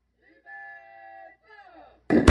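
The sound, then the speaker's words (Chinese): An artillery gun firing toward a sea target area during a live-fire military drill: sustained tonal signal notes are followed by a single sudden, loud boom at the end. “接续射击的是各连第二炮，第二炮发射，”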